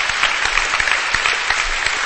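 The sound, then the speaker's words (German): An audience applauds during a church service: dense, steady clapping runs loud and unbroken from start to end, with no voices standing out. “Give the Lord a hand. Gib dem Herrn Jesus einen Applaus.”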